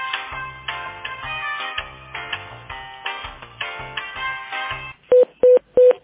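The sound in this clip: Telephone hold music plays while an office call is being transferred to another person, then cuts off and gives way to three short, evenly spaced electronic beep tones.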